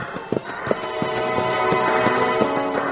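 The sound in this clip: Hooves of a horse named Thunder galloping in a Western sheriff's chase after riders heading for town, a rapid, uneven clip-clop of sharp knocks running steadily throughout with no talk.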